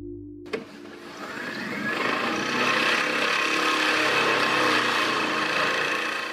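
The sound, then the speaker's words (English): One sheet pile being driven into the ground beside a residential tower gives a sharp knock, then a heavy, rumbling vibratory roar that builds over a couple of seconds and holds loud and steady to the end. “That was just about 5 seconds of driving one sheet pile,”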